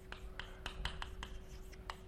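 Chalk-like writing on a blackboard as the letters MTT go up: a quick series of several short, dry scraping strokes at a steady pace, faint against a soft background hum.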